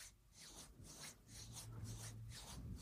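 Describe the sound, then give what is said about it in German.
Palms of the hands rubbed slowly together, up and down: a very faint, soft rasping swish repeated in several slow, even strokes. “Und jetzt fängst du an, ganz langsam deine Handflächen hoch und runter gegeneinander zu reiben. Ganz langsam, ich mache das jetzt hier auch mal mit.”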